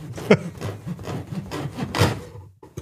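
Sawing: a few rasping strokes in an uneven back-and-forth rhythm, moderately quiet, the last ones trailing off into near silence.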